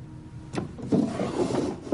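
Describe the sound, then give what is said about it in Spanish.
A drawer of a chest of drawers is pulled open: a quiet knock, then a short scraping slide with a few small bumps. “Abre un cajón de la cómoda y saca un tricornio.”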